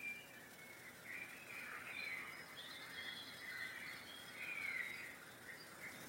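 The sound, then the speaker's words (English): Birds sing in a forest: faint, high chirps and short warbling phrases come and go in a soft, continuous series over a quiet background hush. “Listen to the forest noises. You hear the birds singing.”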